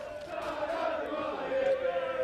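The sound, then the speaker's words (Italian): Football supporters in a stadium roar a steady welcome for the Taranto players, a dense crowd noise that holds throughout and swells slightly near the end, with a sustained tonal note rising out of the din. “Come vedete, grande accoglienza per i giocatori del Taranto, proprio da parte della tifoseria”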